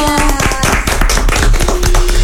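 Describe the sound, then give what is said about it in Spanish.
Clapping from children at a school arts and culture event: many sharp, distinct claps in quick succession, loud and fairly even from start to finish. “¡Aplausos! ¡Gracias!”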